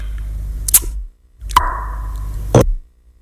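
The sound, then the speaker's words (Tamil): Three sharp, isolated clicks like the click consonants of southern and eastern African languages, spaced roughly a second apart, with a steady tone between the second and third. “இதுபோன்ற click சத்தத்தை Gozo, சுலு, CAATSA, கொய்சான், லுமினி, லுவசிக்கோசா, இசிசுலு, Haja, கன்யனோலுமி, Loma, கொய்சான் மொழிகளில் தெற்கு மற்றும் கிழக்கு Africa முழுவதும்”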